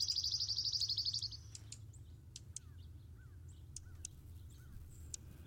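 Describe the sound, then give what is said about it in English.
A junco gives a rapid, high, even trill, then a series of scattered sharp chirps, with a few faint lower calls from crows mixed in. “I can hear some crows in the background there, too, with the junco.”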